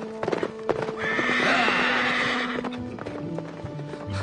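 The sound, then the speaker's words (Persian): Horses whinny and hooves clip-clop at a hunt. One long, high, quavering neigh stands out in the middle, over uneven hoofbeats and scuffing, with a lower snort-like sound near the end. “اسب منو کجا میبری؟”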